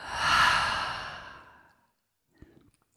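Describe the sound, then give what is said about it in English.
A single deep breath let out through an open mouth, a long, airy exhale that starts strong and fades away over about a second and a half, followed by a faint, brief rustle. “we're going to take a deep, full breath in through the nose. Open the mouth, exhale.”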